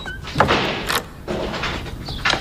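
A door being opened: a few short scraping, rattling bursts with a sliding quality, spaced across a couple of seconds with no voices.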